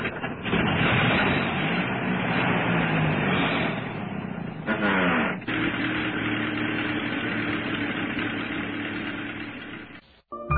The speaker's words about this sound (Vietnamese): Vì cái xe cũ quá, nên quay một hồi lâu máy mới chạy được.